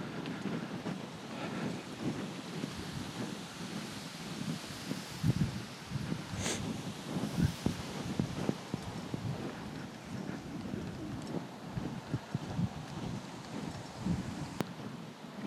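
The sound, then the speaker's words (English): Wind buffets a microphone outdoors while someone walks along the bottoms of gardens, blowing straight into it. Irregular low rumbling gusts swell and drop throughout, faint overall, with occasional sharper thumps. “obviously the wind is blowing in my face now, so apologies for that. It was obviously behind me before, which was why it was nice and quiet.”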